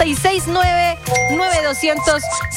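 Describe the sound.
A 1980 ballad with a male vocalist plays, the voice carrying sustained melodic phrases over steady instrumental accompaniment, fairly loud throughout.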